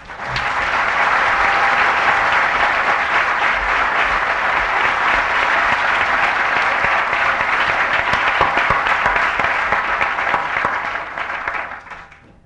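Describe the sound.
An audience welcomes a lecturer at the LSE with dense, sustained applause, a loud, even roar of many hands clapping that fades out at the very end.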